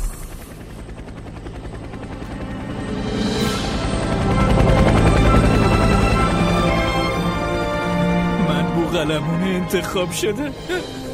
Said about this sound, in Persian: الان سوار هلیکوپترم رو هوا، گوشم گرفته.